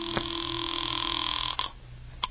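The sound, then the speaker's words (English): Telephone tones as a phone in a house is used to place a call: a steady electronic tone holds for over a second, then breaks off with a couple of sharp clicks. “Well, I couldn't lose much more, so I went back into the house to use the phone.”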